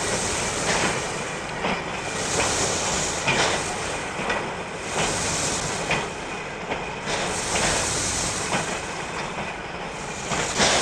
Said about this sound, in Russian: Вагон поезда.